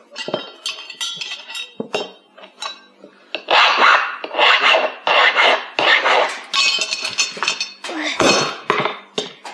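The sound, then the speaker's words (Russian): A wrench tightening a nut gives many quick, rasping metallic strokes in uneven bursts, with scraping and occasional light clinks between them. “Папа, я уже затянул эту гайку.”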